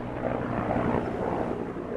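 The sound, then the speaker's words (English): Medical helicopter taking off from a sprawling veterans' hospital campus, heard as a steady, fairly quiet whirring drone of rotor and engine with no other sounds. “A medical helicopter takes off from the VA sprawling campus.”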